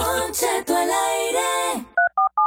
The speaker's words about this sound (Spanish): Déjame hacer una llamada ahorita.